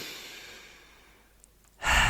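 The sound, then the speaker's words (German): A person breathing in through the nose and out through the mouth: a long, soft breath fades away, then a sudden loud breath comes at the end, with no talking. “Atme hier einmal durch die Nase ein, durch den Mund aus. Nochmal, atme nochmal.”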